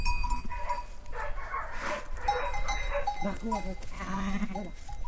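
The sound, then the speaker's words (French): Sheep bleating among livestock grazing on mountain slopes with cows: a few wavering bleats rise over a continuous outdoor background of steady animal noise. “en attendant les premiers flocons, les flancs de montagne sont encore couverts de vaches et de brebis.”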